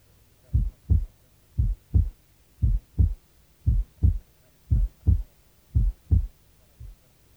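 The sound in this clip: A heartbeat heard at the right base of the chest, with single first and second sounds. Six low, thudding lub-dub pairs beat in steady rhythm, each first sound softer than the second, followed by one lone beat.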